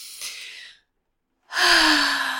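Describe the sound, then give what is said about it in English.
A deep breath drawn in through the nose, a moment of silence, then a louder exhale released as a voiced sigh whose low tone drifts slightly downward. “Breathe in through the nose.”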